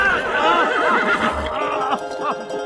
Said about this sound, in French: si Rocinante n'avait par chance trébuché en pleine course